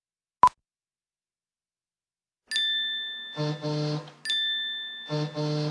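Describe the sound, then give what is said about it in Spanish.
Phone message notification sounds: a single sharp pop, then two bright chiming alert tones, each followed by a pair of buzzier, lower electronic bursts. “¿Qué es todo esto? ¿Es en serio? ¿Quién me manda tantos mensajes?”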